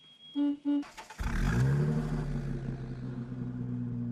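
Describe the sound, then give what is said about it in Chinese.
A car drives off: two short tonal beeps come first, then a loud engine surge kicks in, climbs briefly in pitch and settles into a steady, rumbling drive. “于是便高高兴兴地开车拉着杜润之直奔刘厚同在联谊社的住处。”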